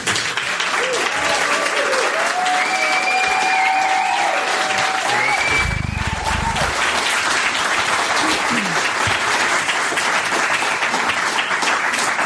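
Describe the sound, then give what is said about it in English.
Audience applause at a solidarity event honouring women who went on strike, dense continuous clapping for the whole clip with a few whistles rising over it. “So can I have a quick round of applause just to open for”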